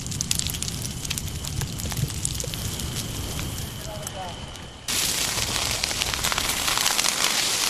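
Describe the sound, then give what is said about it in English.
Trees burn in a wild forest fire in California, giving a dense, continuous crackle and hiss with scattered sharp pops, which grows noticeably louder partway through. “That is the sound of trees burning in a wild forest fire in my home state of California.”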